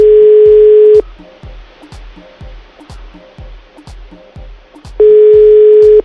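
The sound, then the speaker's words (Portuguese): Ringback tone of a phone call that goes unanswered: two steady, loud one-second rings about four seconds apart, with a regular low pulsing beat running underneath and between them. “Olha o Petrúcio. Ele não vai atender mais”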